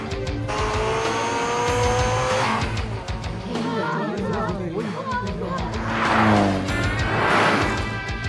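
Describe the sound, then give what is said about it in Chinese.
Several racing cars with rotary engines approach together, their high, revving engine notes overlapping and sweeping up and down in pitch, with tire squeal mixed in and voices over them. “有好多架车嚟紧、啊， 我听到混杂住旋转引擎嘅声”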